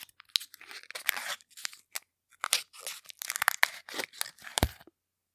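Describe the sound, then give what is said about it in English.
Crinkling, tearing plastic of a chocolate peanut butter cup wrapper being pulled open, heard as many sharp, irregular crackly bursts with brief pauses between them and no talking. “Also, there's a puzzle to open this one. It's like a Reese's cup.”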